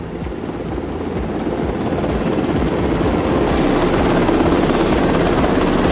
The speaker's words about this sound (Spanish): Melchor, Gaspar y Baltasar llegarán a la capital riojana en helicóptero